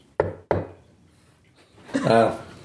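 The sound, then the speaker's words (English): Two polite knocks on a door, short and sharp, about a third of a second apart, followed after a pause by a voice speaking. “So there's a polite knock on the door.”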